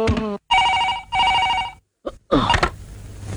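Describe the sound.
A telephone rings in two bursts of a bright, steady electronic trill separated by a short gap, with brief voices before and after.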